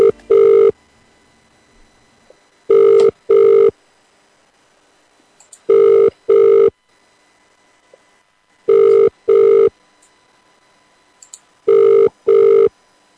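A telephone ringback tone plays while a call is placed. A cut-off ring is followed by four double-burst rings, each a pair of short, loud, steady tones, separated by regular gaps of near silence.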